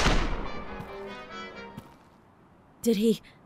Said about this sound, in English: Did he kill him? It's Cynthia. She shot Dugan. Guns out!